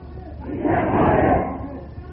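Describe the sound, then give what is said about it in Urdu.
A crowd at a religious gathering voicing a slogan together softly, a subdued collective shout that swells through the middle and then eases back down. “آپ یہ نعرہ بہت آہستہ بلند کر رہے ہیں”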